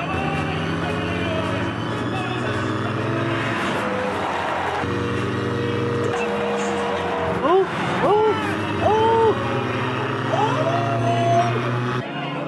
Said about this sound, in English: And here they come again. Oh. This is two Bentleys and they're fine. Two Bentleys.